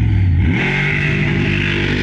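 A monster truck engine revs at a drag race start. Its low harmonic drone climbs in pitch early on, then holds as a loud, steady roar.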